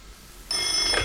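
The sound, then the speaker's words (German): A telephone rings at home in the cold dawn. The bright, high ring starts abruptly about halfway through, then continues steadily at a moderate level to the end. “als mein Telefon klingelte”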